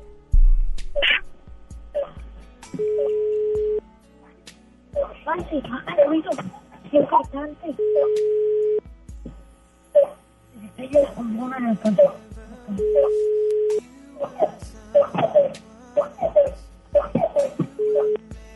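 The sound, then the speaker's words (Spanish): A phone call going straight to voicemail: an automated voice speaks between several steady electronic tones, each held for about a second. “Buzón de voz. Pues mandó directo a buzón.”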